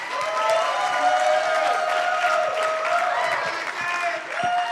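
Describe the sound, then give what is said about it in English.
An audience applauds to welcome a performer at a fine arts showcase. Steady clapping runs throughout, with a sustained tone underneath. “Join me in putting your hands together to welcome her”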